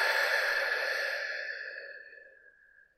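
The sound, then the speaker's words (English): A deep breath exhaled slowly during a guided calming exercise: one long, airy breath out that starts fairly loud and fades steadily over about three seconds, heard alone without talk. “So let's take a deep breath together now. We're going to breathe in through the nose and out through the mouth.”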